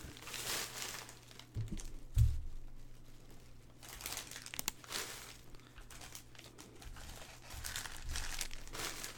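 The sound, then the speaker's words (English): Trading card pack foil wrappers crinkling as packs are opened and discarded: a quiet series of soft crackling rustles with a few sharper crunches, no talking. “This is one thing I do not like about opening so many packs. Is all the trash.”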